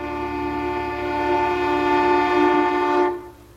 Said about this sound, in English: Either that's a train horn or it's a couple of violins or whatever, fiddles that are completely out of tune. Yeah. I think it's a train horn.